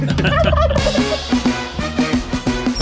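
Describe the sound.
A wild turkey gives a quick, wavering, rattling gobble at the start, followed by a loud rhythmic pulsing beat.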